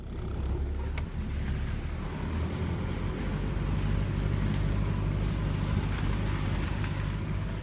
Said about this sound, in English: We're driving up the slopes of Mount Vesuvius.